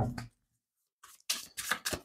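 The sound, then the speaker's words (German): Tarot cards are shuffled and laid out, giving a few crisp, papery bursts of rustling and slapping after a short sound at the start and a pause of near silence. “Ich möchte zum Vollmond mal die Karten legen.”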